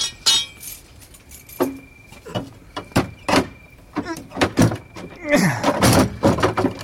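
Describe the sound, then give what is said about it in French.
A door with a tough lock is taken off its hinges, producing many irregular sharp metallic clicks, knocks and clinks that turn into denser scraping and rattling toward the end. “Il s'est fait poser une serrure au coriace. Tant pis pour lui. Je dégonde.”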